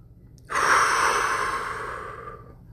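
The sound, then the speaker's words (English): A single long breath drawn in through the nose, a soft, steady airy rush that starts abruptly and slowly fades over about two seconds. “Breathe. In through your nose.”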